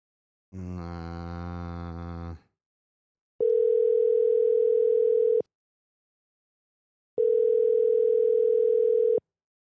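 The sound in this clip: Telephone ringback on an outgoing call: a buzzy harmonic tone comes first, then two long, steady, evenly pitched ringing tones separated by a silent pause, with no voices.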